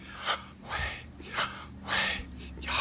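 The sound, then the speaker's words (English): A person breathing in and out, with several airy, rhythmic breaths that swell and fade at an even pace, fairly loud and without speech. “All right, have you listened to yourself breathe?”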